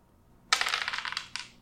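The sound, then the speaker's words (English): Two six-sided dice clatter onto a hard surface: a sharp first impact, then a quick run of bright rattling hits, and a final click as they settle. “But I need you to roll me 2d6.”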